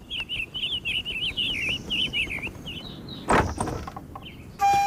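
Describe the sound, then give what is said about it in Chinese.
A wooden house door opens with one short, rough, scraping burst, heard after a steady run of bright bird chirps that carries on around it. “杨震打开屋门，见王密跪在外面。”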